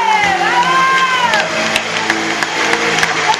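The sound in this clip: Audience applause and cheering for a performer named Françoise: loud, dense clapping runs throughout while a whooping voice rises and falls over it.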